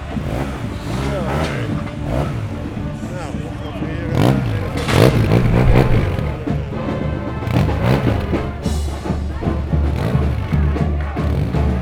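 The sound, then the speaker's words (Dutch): Scooter or motorbike engine revving as it cuts through a pirate parade, a buzzing drone under nearly continuous talk, with some clatter mixed in. “Idioot met een zo'n scooter, motor, bla bla ding, dwars door de parade.”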